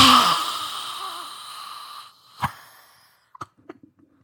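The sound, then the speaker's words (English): A long, deep exhalation through the mouth: a breathy rush that slowly fades over about two seconds, followed by one short knock and a few faint clicks. “So taking a nice, long, deep breath in through the nose. And then breathe out through the mouth.”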